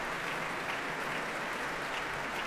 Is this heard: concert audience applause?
yes